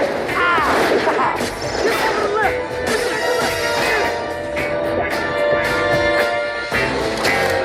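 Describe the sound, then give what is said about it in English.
Machine gun fire from a movie scene, shot from guns mounted on a wheelchair: loud, dense rapid bursts run throughout, mixed with crashing impacts. “turns all of a sudden and has a fucking guns attached to her wheelchair. It starts machine gun killing. And then this happens.”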